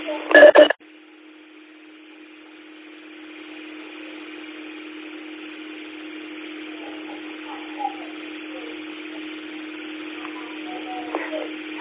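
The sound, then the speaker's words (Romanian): An unmodulated radio carrier from a station keying in on an amateur radio call: a short loud burst, then a steady low tone with a band of hiss held evenly for about eleven seconds. “din păcate, fără modulație, a intrat cineva în emisie, a încercat, cred că a încercat să ne contacteze.”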